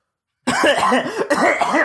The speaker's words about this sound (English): Sorry, I had something in my throat.